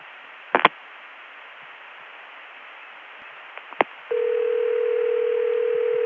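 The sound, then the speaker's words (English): Hiss on a long-distance telephone line between Atlanta and Chicago, broken by a couple of sharp clicks as a digit is dialed, after which a steady, fairly low dial tone starts and holds to the end. “It didn't soup after the cut-through. Now I'll dial another digit.”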